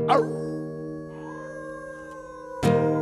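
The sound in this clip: People at a street-corner gathering howl like wolves at the moon, human voices imitating a long, sustained wail that drifts slightly downward in pitch, with short noisy bursts at the start and end.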